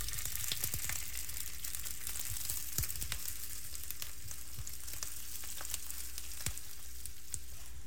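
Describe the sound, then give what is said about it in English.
Steady sizzling of ginger and garlic browning in hot sesame oil in a cast iron skillet, a dense continuous hiss with scattered sharp crackles and pops throughout, no voices. “Throw the sesame oil in the cast iron skillet and getting it hot, and then I'm going to add the ginger and the garlic browned up.”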